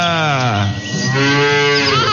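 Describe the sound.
A cow moos at milking time, a single loud, long, low and richly harmonic call that dips briefly partway through before carrying on to the end.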